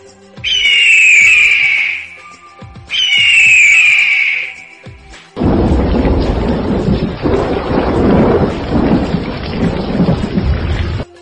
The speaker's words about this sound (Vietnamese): theo sau là tiếng sấm chớp đình tai nhức óc